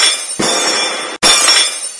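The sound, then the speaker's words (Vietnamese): Teacups falling and shattering in two loud, sharp bursts of breaking crockery, the second coming close after the first. Each crash trails a bright, jangling ring of scattering shards. “Chỉ thấy mấy chén trà đều rơi xuống, phát ra tiếng vỡ nát.”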